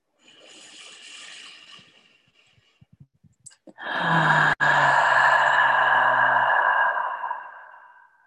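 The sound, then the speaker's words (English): A deep breath taken during a breathing practice: a soft breathy inhale, a few faint clicks, then a long, loud voiced exhale like a drawn-out sigh with a low hum in it. “And we'll take 3 deep breaths together, exhaling with a bit of sound to anchor our practice.”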